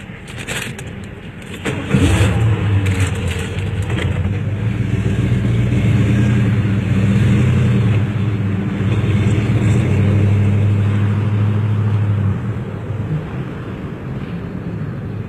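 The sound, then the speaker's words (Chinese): A car engine turns over and starts, then settles into a steady, loud, low rumbling idle that holds for about ten seconds before easing off slightly. “开我车回去。”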